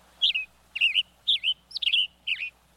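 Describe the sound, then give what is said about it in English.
Western tanager song from a coniferous forest: five short, burry, high-pitched phrases in a robin-like rhythm, each split into two or three quick notes and separated by brief pauses, heard clearly alone. “The tanager's tune is as sharp as his brightly colored red head.”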